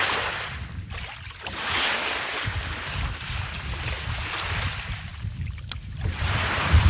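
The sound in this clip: Water swishes as a tool pushes it across a salt pan, driving the salt grains along. The wash is soft and continuous, with a few stronger surges.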